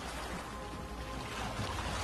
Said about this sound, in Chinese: 听见海浪